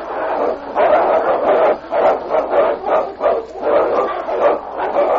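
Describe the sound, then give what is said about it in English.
A dog barks repeatedly during a fight, a long run of loud, rough barks in a fairly steady rhythm, packed closely over a dense, noisy background. “listen, that's a dog's bark. Can you see? That last one. It is a dog.”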